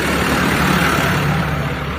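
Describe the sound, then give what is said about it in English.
A tractor drives past, producing a loud, steady engine rumble and broad mechanical noise that stays constant throughout with no distinct separate events. “Tractor going by.”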